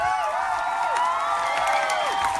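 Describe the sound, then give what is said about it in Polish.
A studio audience at a radio morning show applauds and cheers. Steady clapping and crowd noise carry through, with a couple of high whoops or whistles that slide downward in pitch. “No dobra, wytrzymamy te oklaski. Widzę, że jest jakaś euforia.”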